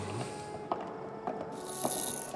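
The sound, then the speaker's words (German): Rosary beads dropped onto a floor, heard as a few short, sharp clicks spread over a couple of seconds against a steady low background, without talk. “Mir ist mein Rosenkranz runtergefallen”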